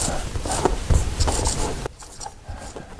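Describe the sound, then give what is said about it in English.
Scratchy strokes of writing on a board by a teacher: quick rubbing marks for about two seconds, then a quieter, sparser stretch of a few lighter strokes. “Let me write this up on the board here so we can see the numbers clearly.”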